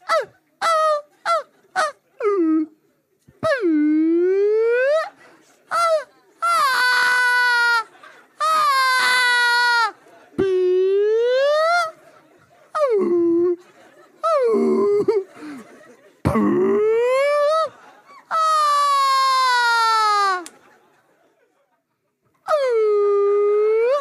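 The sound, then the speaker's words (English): A voice imitates a whale call with a long series of drawn-out, wavering 'ooh' cries that bend and swoop in pitch. The cries are loud and stand alone, some short and others stretched over a second or two, with brief silences between them. “Two whales go into a bar. The first whale says, ooh, ooh, ooh,”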